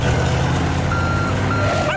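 A fire truck's aerial ladder being raised for a rescue, a loud, steady mechanical hum with a sustained high tone and repeated warning beeps running the whole time.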